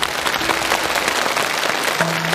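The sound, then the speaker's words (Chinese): An audience claps to welcome a guest, a guzheng student, onto the stage of a televised classical poetry competition; steady, full applause with many hands clapping continuously at an even level throughout. “好， 来，掌声欢迎。”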